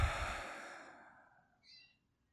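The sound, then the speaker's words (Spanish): A deep exhale through the mouth during a breathing meditation, one long, soft breath that starts fairly strong and slowly fades out over nearly two seconds, heard alone. “Inhala profundo por la nariz. Exhala por la boca.”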